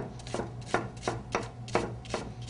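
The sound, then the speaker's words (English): Knife chopping a peeled red onion very finely, a steady rhythmic series of crisp cutting strokes at an even pace over a low constant hum, with no voices. “We're going to slice it down the middle and just cut it very, very, very fine.”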